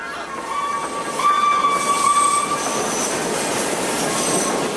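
An elevated railway train passes with a loud, steady rumble and high, sustained wheel squeal over about five seconds, with no voices.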